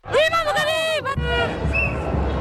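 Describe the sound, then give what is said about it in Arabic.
Moroccan fans celebrate outside Prince Moulay Hassan stadium in Rabat after the women's national football team wins a quarter-final. Loud chanting voices come first, then a dense, continuous crowd hubbub. “أفراح وسط الجماهير المغربية بعد مغادرتها ملعب الأمير مولاي الحسن في العاصمة المغربية الرباط.”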